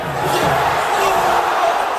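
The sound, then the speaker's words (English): A soccer crowd at Subaru Park groans as a Philadelphia Union player hits the post from a late corner against the Chicago Fire. The massed voices form a broad, loud, steady swell for about two seconds. “That was the sound of Subaru Park letting out a sigh as off a corner in the game's final minutes, a Union player put it off the post.”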